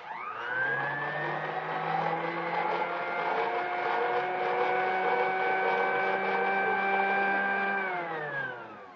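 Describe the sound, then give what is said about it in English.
Insulated wire running through electrically charged coils in a wire tester gives a steady harmonic electric whine that rises briefly at the start, holds evenly, then sags in pitch and fades near the end. “Except for the noise of the wires running through the coils, you heard nothing, huh?”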